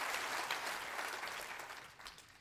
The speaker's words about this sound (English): Clap your hands and rejoice to that.